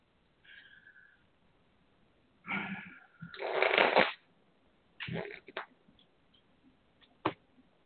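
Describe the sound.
Playing cards being handled, heard as a few papery rustling and riffling bursts with a longer shuffle in the middle and a short sharp snap near the end, separated by quiet gaps, with no talk.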